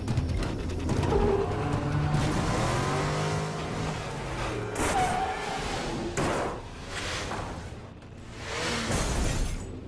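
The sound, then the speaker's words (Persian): A car accelerates hard, its engine revving loudly through rising and falling tones over a continuous roar, dipping briefly near the end before climbing again. “تو که مثل مامان بزرگم میرونی، وقتی میگم گاز بده یعنی پرواز کن.”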